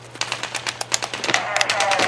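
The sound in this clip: Rapid machine-gun fire from a war video game set in Iraq crackles in quick, uneven bursts. Many sharp shots stay loud and steady throughout the short stretch.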